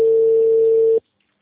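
A telephone tone after a dropped call: one steady, mid-pitched beep held for about a second, then cut off into silence.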